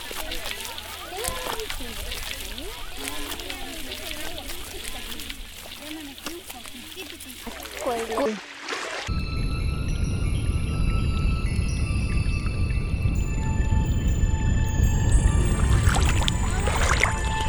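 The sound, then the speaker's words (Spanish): Cold water sloshes and splashes steadily through the second half, a dense, continuous wash that follows a stretch of people talking over fainter water movement. “estoy grabando el sonido del agua”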